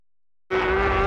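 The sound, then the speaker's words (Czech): High-revving MotoGP world championship racing motorcycle engine roaring in abruptly after half a second of silence, a loud sustained whine with a strong, steady pitch. “Šílená předjíždění, epické souboje, kolekce MotoGP, špičkové stroje světového šampionátu”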